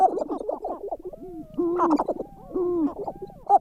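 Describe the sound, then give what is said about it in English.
A sharp-tailed grouse sings alone in a quick series of hollow hoots, coos and bubbling clucks. Its gliding tones rise and fall, broken by short pauses. “That's the song of the sharp-tailed grouse.”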